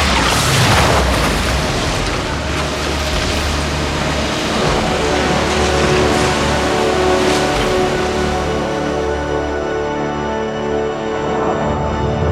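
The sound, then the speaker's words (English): Sci-fi sound effect of an atomic vacuum device switching on near a ship: a loud, dense, booming roar that holds steady throughout, its bright upper hiss thinning toward the end. “activating the atomic vacuum in 5, 4, 3, 2, 1.”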